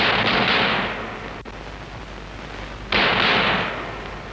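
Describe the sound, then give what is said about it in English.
Gunshots are fired at the door lock of a flat in a mews, heard as two loud blasts with long fading tails. A short sharp crack falls between them. “I just pull out the shooter and I start shooting the lock like they do in the movies.”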